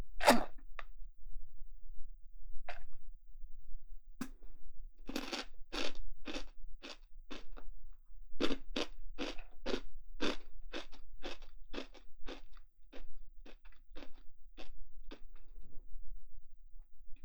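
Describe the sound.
Crunching snack chips in salad and potato-butter flavors: many sharp, crisp bites, sparse at first and then in a quick, steady rhythm, with a faint low rumble underneath.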